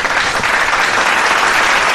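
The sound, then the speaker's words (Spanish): An audience breaks into loud, dense applause after a tribute to two late composers. The clapping stays steady and unbroken, a thick continuous patter with no pauses. “Pausa, aplauso del público.”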